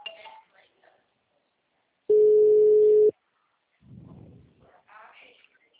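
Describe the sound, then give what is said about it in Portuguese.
A steady electronic telephone tone signals an incoming call, a single even beep about a second long, set between faint snatches of voices. “Tem alguém me ligando.”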